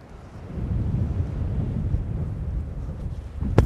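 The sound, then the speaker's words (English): Strong wind roars at a rocky coastal viewpoint, buffeting the microphone with a low, gusting rumble that swells after a quieter start and holds steady, with a brief thump near the end. “So it's really windy now. We're right on a viewpoint. Some massive rocks in front of us. Full force of the wind.”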